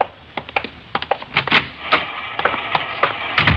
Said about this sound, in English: She's running all the cards on previous shooting through the IBM machine. She ought to be through about now.